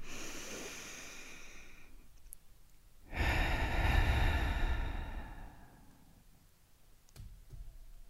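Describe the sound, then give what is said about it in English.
A slow, deep breath in and out, with a soft airy rush that swells and then fades. A few faint clicks sit in the quiet stretches on either side. “Let's take our traditional breath in and breath out.”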